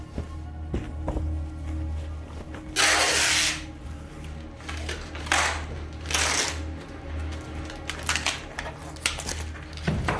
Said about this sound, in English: He wraps it up, then secures it with duct tape.